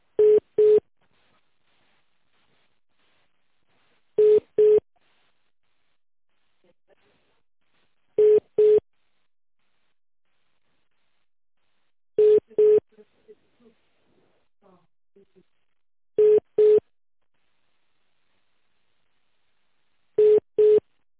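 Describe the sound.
Telephone ringback tones play while a call is transferred to a sales department: six short double beeps, evenly spaced about four seconds apart, with faint scattered sounds in the quiet gaps between some of them.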